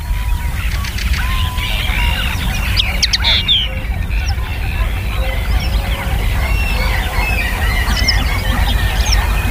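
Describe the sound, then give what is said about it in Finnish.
A common linnet sings outdoors in quick, bright twittering chirps, repeated many times over a steady, rough low background rumble. “vuoden viimeinen luontoääni on Hemppo. Ja on siellä kaupan päällisiksi taustalla myös esimerkiksi käki.”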